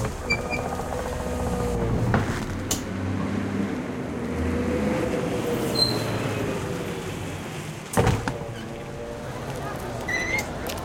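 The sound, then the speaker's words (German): Low engine rumble of a tourist double-decker bus driving through New York City, a steady droning hum with a couple of sharp knocks along the way. “Lass uns da drüben diesen Touristen-Doppeldeckerbus nehmen. Die fahren ja durch die ganze Stadt zu allen Sehenswürdigkeiten.”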